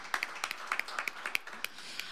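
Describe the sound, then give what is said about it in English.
Scattered handclaps from a small audience at a live bluegrass show, crisp individual claps in an uneven rhythm, fairly faint, with no voices. “how about one more round of applause for Jason Ellis”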